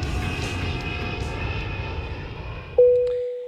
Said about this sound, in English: Hello, this is your captain speaking. We've reached our cruising altitude of 5,446 feet. I've turned off the fasten seatbelt sign.